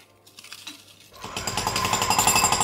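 Construction site noise with rapid, rattling hammering like a jackhammer. It starts fairly quiet, then turns abruptly loud about halfway through and continues as a harsh, steady clatter.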